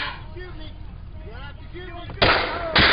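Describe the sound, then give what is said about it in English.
People shout, then two loud, sharp gunshots crack out a moment apart. “Are they shooting him? Did I shoot him?”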